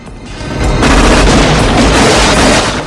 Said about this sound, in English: Gunmen lean from the car and open fire.